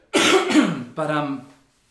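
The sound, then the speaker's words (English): A person clears their throat in two rough, voiced bursts, the second a little shorter, with no talk over it. “Sorry, I got something caught in my throat.”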